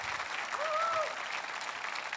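A church audience applauds in a steady, dense patter of many clapping hands at moderate loudness. A brief rising and falling vocal tone rises over the clapping partway through.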